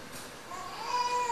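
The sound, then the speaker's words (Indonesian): A young child cries, a faint, thin, high wail that emerges after a quiet start and holds for a moment. “Dia nangis. Nangis.”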